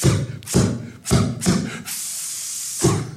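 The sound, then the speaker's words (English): Voice imitating gunfire and bombs with mouth sounds, as a boy would in play: several sharp, breathy bursts, then a long hissing blast, then one final burst. “That was my sound for guns and bombs. Little boys always loved making sounds like guns and bombs.”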